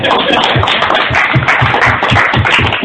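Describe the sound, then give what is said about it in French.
Dense, steady applause from a church audience fills the whole stretch, with soft regular low thumps pulsing underneath at an even pace. “Applaudissez pour vous.”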